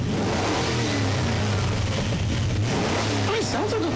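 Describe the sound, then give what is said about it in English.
Artificial engine sound for an electric Ferrari, a loud, continuous low drone with revving tones, while people talk over it. “It is the real sound the vehicle is making, but just louder, so it sounds like it's not an EV. It's kind of a fake sound.”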